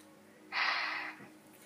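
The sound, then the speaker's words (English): One deep breath, loud and airy with a slight snorting rasp, lasts about half a second before fading to quiet, taken by a person told to breathe in and out during a prayer for healing from malaria. “Just breathe. Just breathe in and out.”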